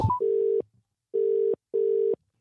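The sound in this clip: Telephone ringing tone heard while placing a call: loud, steady, mid-pitched buzzing tones in a ring pattern, one burst followed after a pause by a closely spaced pair, with a short noise at the very start.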